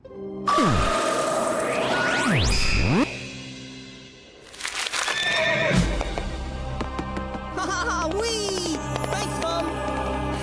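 A horse neighs and whinnies loudly, with sharp sweeping rises and falls in pitch over the first few seconds, followed by a brief lull and then a busier stretch of squeaky, warbling tonal sounds.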